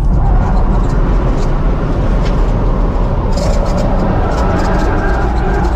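Loud, continuous roar of a Tesla Model S Plaid electric sedan racing hard through corners, a dense rushing drive noise that holds steady without distinct pauses or separate events.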